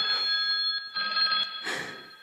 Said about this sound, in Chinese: 电话来了